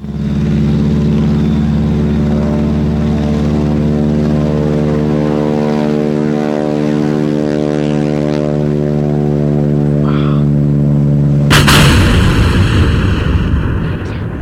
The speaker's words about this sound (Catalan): I llavors, a mig camí, l'avió va tenir un accident i va caure al desert del Sàhara.